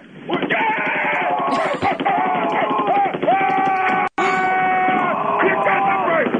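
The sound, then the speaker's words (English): Machine gun fire: a dense, continuous rapid rattle that runs almost unbroken throughout, with voices mixed in over it. “Machine gun fire? Okay.”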